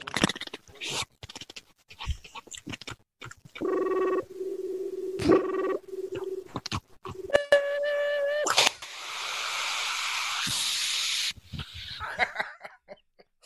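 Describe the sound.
A voice imitates a rotary phone dial and then a 28.8k dial-up modem connecting: many short clicks, sustained buzzing tones, a warbling harmonic tone, then a long, loud hiss of noise before it cuts out.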